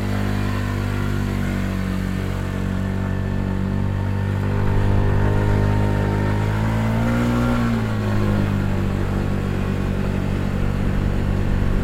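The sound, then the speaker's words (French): A scooter engine runs in an old train station car park, a steady mid-pitched hum that grows louder midway, with a brief rise and dip in pitch before it settles. “Puis récupère son scooter sur le parking de la vieille gare.”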